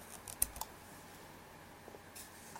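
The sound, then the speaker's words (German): A faint press of the eject key on a Mac keyboard: a few soft, quick clicks in the first moments, then near silence with one small tick later. “Ich werf das mal aus mit der Auswerfentaste.”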